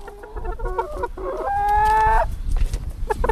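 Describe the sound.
Chickens cluck in a backyard coop in the garden of a family house in Telč, while a rooster lets out one long crow midway. Scattered clucks continue around it, and no one speaks.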